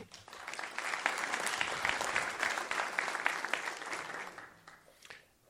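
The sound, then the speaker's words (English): Audience applause for a speaker after a conference presentation, a full, continuous wash of clapping that stays loud for several seconds before tapering off at the end. “Thank you very much. Give him a good hand.”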